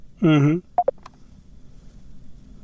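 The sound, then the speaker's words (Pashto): A phone line cuts off during a radio call-in: a brief garbled burst of voice, then two short electronic beeps, followed by near silence with a faint hiss. “هلو، او د دوی لاین هم کته سو او لاړ بسو.”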